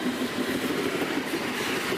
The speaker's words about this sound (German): bei der vorbeirauschenden S-Bahn. Die übrigens Schnee aufwirbelt.